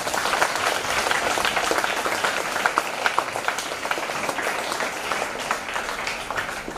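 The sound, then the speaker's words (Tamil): An audience at a school centenary celebration claps for the crowd itself. The dense applause holds steady and unbroken throughout. “அதுக்கு நீங்களே உங்களுக்கு ஒரு கைதட்டிக்கலாம்”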